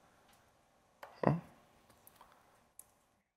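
Faint computer keyboard typing: a few light, separate key clicks spread over a couple of seconds, with a slightly louder, fuller tap among them and quiet between strokes.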